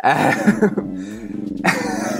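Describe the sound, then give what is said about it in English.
A dog woofing at the postman: a steady run of gruff, growling barks lasting a couple of seconds, fairly loud with no voices over it. “the dog is woofing at the postman.”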